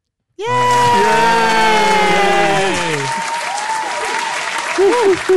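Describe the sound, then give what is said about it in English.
A group of people clapping, with high whooping cheers mixed in. The applause starts abruptly and stays loud and dense throughout. “That's the sound of people clapping”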